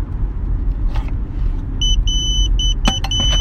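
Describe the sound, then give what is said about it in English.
A hospital pager beeping: a series of short, high-pitched electronic beeps in quick groups, with a sharp click just before the last ones, sounding over a constant low rumble of background noise. “That is my hospital pager.”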